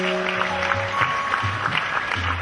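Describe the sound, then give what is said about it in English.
Audience applause at the close of a devotional music evening with mridanga and chorus: dense, steady clapping throughout, with sustained musical tones held low beneath it. “Let's have a nice round of applause for”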